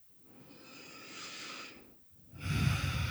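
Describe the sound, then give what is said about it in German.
Deep breaths in and out during a guided meditation: a long, soft airy inhale, then a louder, fuller exhale after a short pause, with no other sounds. “Mach ein paar tiefere Atemzüge in den Herzraum ein und aus.”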